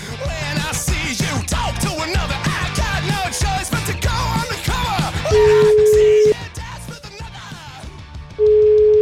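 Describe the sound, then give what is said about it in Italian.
Ringback tone on a telephone line while a call is being placed. After a dense, busy passage, two steady mid-pitched tones sound alone, separated by a pause; the second is cut short. “Chiamiamolo, io voglio sentire com'è andata. Luca Caruso, chiamiamo.”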